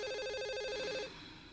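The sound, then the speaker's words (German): Landline telephone ringing early in the morning: one fairly faint, rapidly trilling electronic ring that continues for about a second and then cuts off, with no voices. “Ein Anruf auf dem Festnetz und das ziemlich früh am Morgen.”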